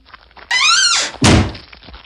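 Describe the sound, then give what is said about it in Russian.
A large chest is shut and locked with a long key: a squeaky, creaking hinge rises briefly, then the lid lands with one heavy, dull thunk. No voices are heard. “Он убрал камень в большой сундук и запер его длинным ключом.”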